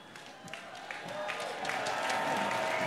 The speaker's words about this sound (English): Let's give Thomasina a bigger hand than that. Let's give the Prince Sing-Along Choir a hand.